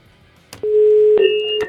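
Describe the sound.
A telephone ringing tone on a call: one steady, mid-pitched electronic tone held for about a second, with brief clicks at its start and end.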